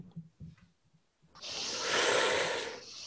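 Slow exhalation during a guided breathing exercise: a steady, breathy hiss that swells in after a few soft low sounds and holds fairly loud for nearly two seconds.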